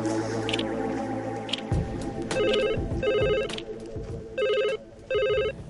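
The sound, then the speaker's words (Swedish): Telephone bell ringing in four loud, buzzy bursts grouped as two double rings, over a mix of other background sounds. “Och då ringde telefonen.”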